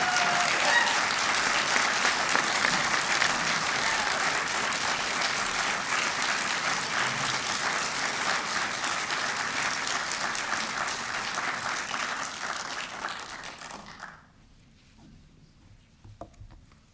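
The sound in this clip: An audience claps warmly for a guest rabbi welcomed to the platform, dense and even applause sustaining for about fourteen seconds before cutting off to near silence.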